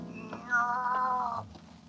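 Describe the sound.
A cat gives a single drawn-out meow in the dark, fairly quiet and lasting under a second.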